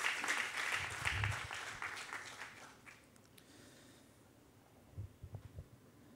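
Applause from a church audience during a service, a dense wash of clapping that is loud at first and then gradually fades away.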